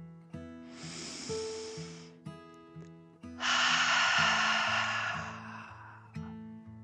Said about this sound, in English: took another deep dragon breath in and out